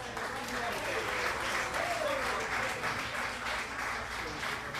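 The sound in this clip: An audience applauds to welcome a jazz band for its final set at the Origin Records Chicago Jazz Summit. The clapping is full and continuous, with a voice speaking over it.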